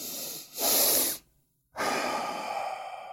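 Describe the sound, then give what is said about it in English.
A person breathes through the nose with a double inhale: a short sniff, then a longer, louder airy intake, a brief pause, and a long, steady hissing exhale. “It's simply, you breathe through the nose with a double inhale like this.”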